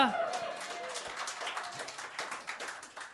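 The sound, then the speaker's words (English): Scattered applause from part of a comedy show audience, a thin, uneven patter of separate claps that stays soft throughout and follows a brief voice at the start. “I noticed only a third of the room clapped.”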